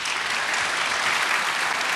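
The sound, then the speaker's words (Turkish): Applause sending off a guest on a Turkish folk music show: a steady, dense patter of many hands clapping, held at a constant level throughout. “Alkışlarla uğurluyoruz.”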